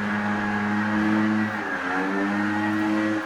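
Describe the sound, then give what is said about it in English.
A blower's engine drones continuously, loud and steady, with a buzzy harmonic whine over a low hum whose pitch wavers slightly midway. “Sorry, that blower's getting closer. I hope you can hear me.”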